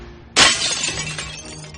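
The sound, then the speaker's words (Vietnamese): A tempered glass door shatters with a sudden, loud, bomb-like burst, then the pieces, rounded like corn kernels, collapse in a dense crackling cascade that slowly fades. “cánh cửa kính cường lực nổ bùm một tiếng như bom. Tất cả đổ sập xuống, từng viên kính cường lực tròn như hạt ngô rơi lạ tả.”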